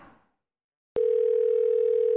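Telephone dial tone while calling a colleague: after a faint brief rustle and silence, a sharp click leads into a steady, loud, single-pitched hum that holds unbroken for over a second.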